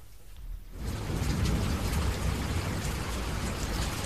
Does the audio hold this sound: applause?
no

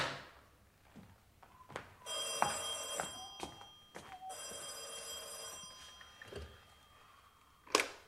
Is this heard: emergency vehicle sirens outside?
no

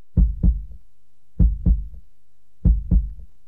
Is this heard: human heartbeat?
yes

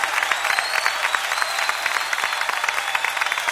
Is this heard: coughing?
no

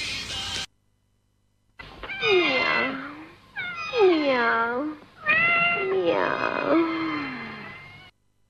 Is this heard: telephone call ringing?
no

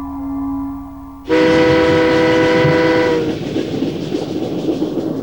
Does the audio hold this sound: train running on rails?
yes

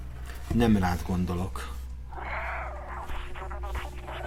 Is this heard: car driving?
no

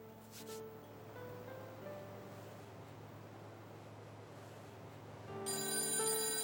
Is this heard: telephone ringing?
yes

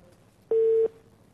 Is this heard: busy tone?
yes

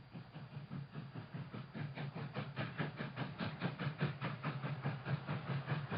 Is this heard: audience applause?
no

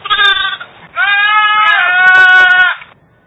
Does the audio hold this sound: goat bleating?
yes

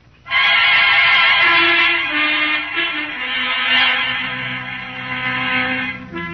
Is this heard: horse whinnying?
yes

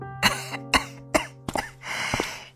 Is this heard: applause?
no

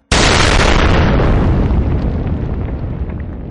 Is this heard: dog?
no

